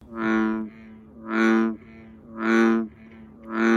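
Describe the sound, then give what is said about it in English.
Deep, resonant calls of an American bullfrog, four droning harmonic croaks repeating at an even rhythm of roughly one per second, loud and alone. “That's the sound of an American bullfrog,”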